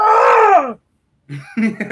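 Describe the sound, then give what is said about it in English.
A voice imitates a hospital patient's screaming with a drawn-out, groaning wail that falls in pitch. A short silence follows, then more voiced sounds. “there was somebody in a room like across the hall who would not stop screaming. But the sounds they kept making was like,”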